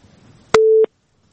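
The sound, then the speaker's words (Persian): A telephone busy tone sounds after a caller's line drops: one steady, mid-pitched beep lasting about a third of a second, following faint low background noise and then giving way to silence. “بازم تماس قطع شد.”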